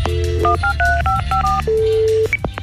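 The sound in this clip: A telephone is dialed with touch tones: a quick run of about eight short, bright two-note beeps, then one longer steady tone and a final brief high blip.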